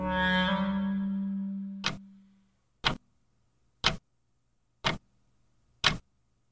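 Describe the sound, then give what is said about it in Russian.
A clock ticking: five sharp, dry ticks spaced evenly about a second apart. A ringing tone fades away at the start, and near silence falls between the ticks. “«Ни мелодии, ни красивых соотношений звуков, одни щелчки». На самом деле эти щелчки, простое тиканье часов,”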